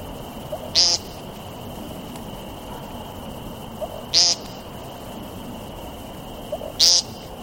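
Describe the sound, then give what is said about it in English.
A bird on the ground gives its nasal ping call three times, each a short, loud, buzzy note spaced a few seconds apart, over a steady high drone and soft background hiss. “once they do, they'll almost immediately begin with this nasally ping, ping, ping. There it is.”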